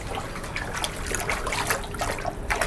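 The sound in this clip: A hand splashing lukewarm water in a footbath at a shrine: a steady, busy wash of small splashes and trickles at moderate loudness, with no talking.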